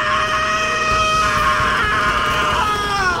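A man's sudden scream as he bolts upright in a medical bay, tearing off wires and sensor pads. It is loud, strained and continuous, holding a shrill harmonic tone for about three seconds.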